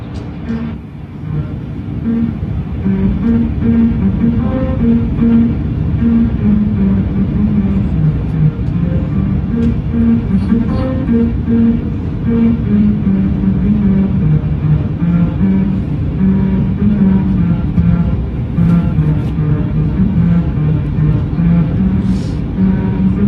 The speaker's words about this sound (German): Da fährt man so lang und dann sind da so Rillen im Boden und wenn man auf der vorgegebenen Geschwindigkeit fährt, dann kann man ein Lied hören.